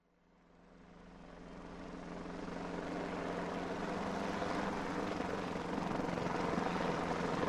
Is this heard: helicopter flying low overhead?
yes

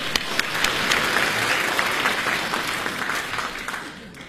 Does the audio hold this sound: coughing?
no

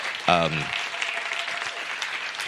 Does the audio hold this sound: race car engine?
no

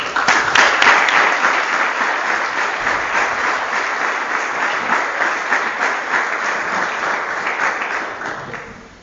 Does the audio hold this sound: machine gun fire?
no

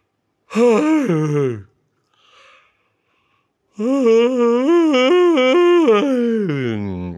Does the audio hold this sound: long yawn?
yes

